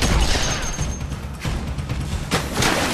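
Gunfire from an action audio drama as a guard on a lookout is shot: a few sharp, loud bursts crack out against a dense, noisy background.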